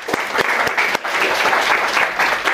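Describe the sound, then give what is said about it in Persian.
Audience applause at a spoken presentation, a dense, steady patter of many hands clapping for the whole clip, loud and unbroken, with no voices over it. “متشکرم. تشویق کنید خودتون”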